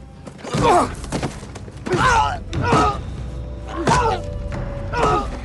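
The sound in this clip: A man lying on the ground is punched and kicked, with dull thuds and pained, strained groans and grunts coming in a series of irregular bursts.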